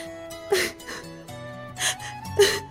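A woman crying, with a few sharp, breathy gasping sobs breaking out between quieter whimpers, over soft sustained low tones.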